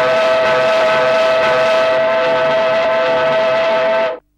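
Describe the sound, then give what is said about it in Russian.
A black iron steam locomotive whistle wails from a train at a station platform: one long, loud, steady blast with rich layered harmonics, held for about four seconds before cutting off sharply. “Громко навзрыд закричал паровоз.”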